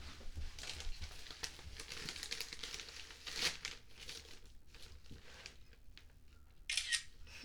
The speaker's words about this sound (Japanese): プリンだよ、写真撮る、 撮る、 いいよ、撮って